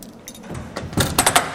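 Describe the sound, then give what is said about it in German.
A prison cell door's snap lock is closed: metallic rattling and jangling build to a few sharp clicks and clacks as the latch snaps shut. “Und wenn du zumachst, machst du das Schnappschloss zu, sozusagen.”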